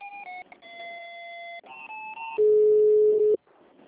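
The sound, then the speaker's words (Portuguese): Telephone line tones during a call transfer: a run of steady electronic tones stepping between pitches, then one long, loud, flat tone lasting about a second that cuts off abruptly. “me transfere de novo lá para a Naira, por favor, que caiu a ligação”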